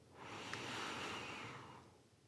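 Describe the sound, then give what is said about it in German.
A single deep breath, a long airy rush of air that swells and then eases away over about two seconds, heard on its own. “Atme mal tief durch, ich auch.”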